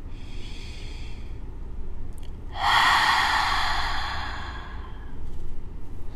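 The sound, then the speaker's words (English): An open-mouthed exhale during a yoga class, a single breathy sigh of a second or two rising out of a quiet background. “Exhale, open the mouth and just let it all escape.”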